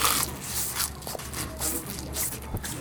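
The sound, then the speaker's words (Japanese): Crisp crunching as deep-fried breaded shrimp dipped in tartar sauce is bitten and chewed, a few sharp crackling bursts over a steady low background. “きつね色にこんがり揚がったエビフライが4本入ってます。でタルタルソースもサラダもついていて、じゃあちょっとタルタルをちょちょいとつけましていただきます。”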